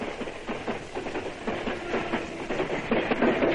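A train passes with a heavy steady rumble and a rhythmic clickety-clack of wheels over rail joints, growing slightly louder toward the end.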